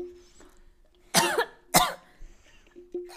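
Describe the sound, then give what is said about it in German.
Coughing from someone who has choked on saliva: three loud, harsh bursts spaced about half a second to a second apart, set against a faint low hum with no talk. “Ich habe mich an meiner Spucke verschluckt.”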